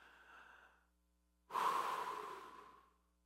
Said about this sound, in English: So I want you to slow down, church, right now. Everybody take a deep breath.